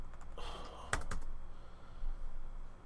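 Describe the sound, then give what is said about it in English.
Typing on a computer keyboard: a quick, faint run of a few clicking keystrokes over a low steady background hiss. “That was the reason why I typed on it, because you were talking about it.”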